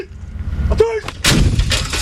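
Howitzer fire during a Turkish military live-fire exercise at Polatlı, Ankara: after a quiet start, a single loud blast hits and rolls into a heavy, sustained rumbling roar.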